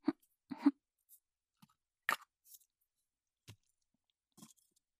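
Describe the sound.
A container lid being closed: a few small, quiet clicks and scuffs, scattered and separated by silence.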